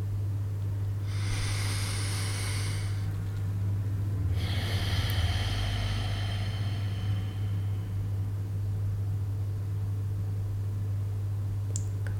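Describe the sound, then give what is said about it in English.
Breathing as part of a relaxation exercise: one deep inhale through the nose, then a longer, airy exhale through the mouth. Both are soft and hissing over a steady low hum, and quiet follows the exhale. “Take a long deep breath. Inhale through the nose and exhale for a long time through the mouth.”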